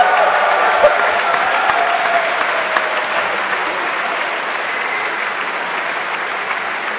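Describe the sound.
Steady applause, dense continuous clapping that holds an even, fairly loud level for the whole stretch, with no talk over it.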